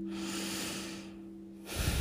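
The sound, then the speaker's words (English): Slow, deep cleansing breaths during a relaxation exercise: a long, airy breath fades into a quieter stretch, then another breath begins. The breathing is soft and sits over a steady low hum. “Take three or four very deep cleansing breaths.”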